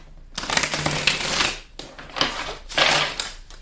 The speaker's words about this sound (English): This strength card just popped right on out when I was putting the cards back together.